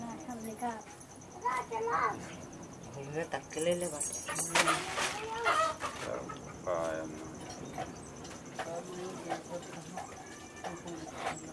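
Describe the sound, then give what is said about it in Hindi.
Ghungroo ankle bells, a sample string meant to be tied to the foot under a lehenga, jingle in a few brief metallic shakes while people talk throughout. “ये घुंघरू है पैर में बांधेंगे”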